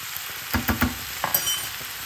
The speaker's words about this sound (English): And the onion is softened and starting to brown, so I'm just going to add the mince and pick that up.